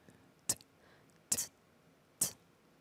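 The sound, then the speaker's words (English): A voice imitates a basic hi-hat drum sound with three short, crisp, hissy ticks, evenly spaced and quiet, with nothing else around them. “like this is the hi-hat sounds. Okay, of the drums. Okay, hi-hat drums. Okay. Yeah, it's the hi-hat drum sounds.”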